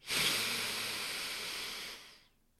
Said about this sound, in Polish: dokonujesz dość głębokiego i szybkiego wdechu e, przez nos. Czyli to będzie coś takiego